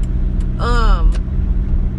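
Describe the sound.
Low, continuous rumble of a car being driven, one overdue for an oil change, steady throughout, with a brief stretch of a person's voice sounding over it partway through.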